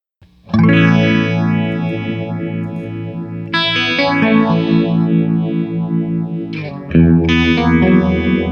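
Guitar played through a modulation effects unit on a modern setting, its left and right modulation speeds changed. Loud, sustained distorted chords with a swirling chorus shimmer shift to new chords a few times.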